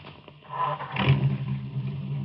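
Car engine revving as the car pulls away, a low rumble that swells and rises briefly, then settles into a steady drone, with no voices.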